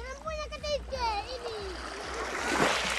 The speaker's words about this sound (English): The rising tide laps at the feet of local children and fishermen and submerges all but the tops of the mangrove trees. This is the village of Tuoho in Indonesia's North Sulawesi province.